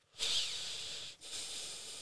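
A person imitates heavy breathing into a microphone: two long, airy, hissing breaths, the first rising sharply and the second following after a brief pause.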